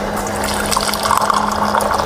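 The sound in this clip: Hot water poured into a glass with a little sugar: a continuous, fairly loud splashing pour with a low steady hum beneath it.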